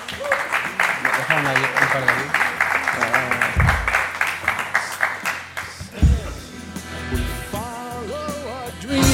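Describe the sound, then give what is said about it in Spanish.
Applause from an audience at a board game convention as a game publisher is introduced: many quick claps in a busy rhythm for about five seconds, mixed with voices, then thinning as talk takes over. “Un aplauso.”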